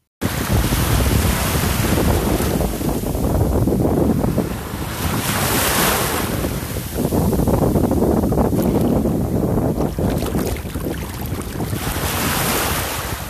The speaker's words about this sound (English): Enjoy the waves.